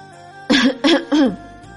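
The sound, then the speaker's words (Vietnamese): Three dry coughs come in quick succession, short and fairly loud, with no talk around them. “Bạch Ngọc Đường ho khan một tiếng”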